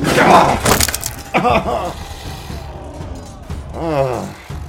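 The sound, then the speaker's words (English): A wooden table is smashed through with a loud splintering crash of breaking wood at the start, followed by short, strained vocal groans and gasps. “it flings you off towards the other one near Doomsayer, and you smash through a table”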